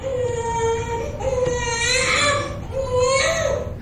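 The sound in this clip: A healthy newborn baby boy cries just after birth, loud wavering wails rising and falling in a few drawn-out bursts, with little pause between them.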